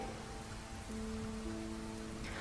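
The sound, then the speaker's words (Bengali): Easing rain falls outside as a faint, steady patter and hiss that continues unbroken, with no voices. “বাইরে তখনও বৃষ্টি একটু কমলেও আওয়াজটা কিন্তু স্পষ্ট”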